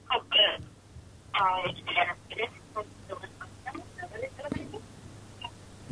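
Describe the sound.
Telephone dialing to reach a caller, with a few short tonal bursts at the start followed by quieter, choppy clicks and tones while people talk underneath.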